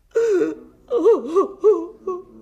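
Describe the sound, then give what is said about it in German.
A person cries and wails in a German drama scene, letting out several short, wavering sobs whose pitch quivers up and down, separated by brief gaps. “Hören Sie auf zu heulen.”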